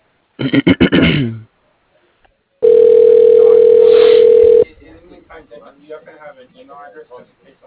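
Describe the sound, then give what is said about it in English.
Phone line tone as a call is transferred to voicemail: a brief throaty sound, a pause, then one steady two-second tone over line hiss, followed by faint talk. “What I could do is transfer you to his voicemail and just leave your information”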